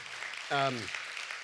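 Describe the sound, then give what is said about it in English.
Church audience applause forms a steady wash of clapping, and a brief voice rises over it. “let's give them a hand as just a way to say thank you to be a part of this.”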